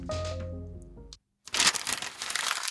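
A beer is opened for drinking: after a short tonal passage and a brief silence comes a sharp crack, followed by a continuing crackling fizz.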